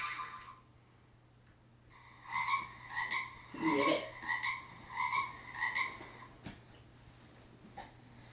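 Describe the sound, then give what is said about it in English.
Frog croaking in a rhythmic run of six evenly spaced, buzzy harmonic croaks, fairly loud and alone, after a quiet start. “And ribbit, ribbit, ribbit, ribbit, ribbit, ribbit.”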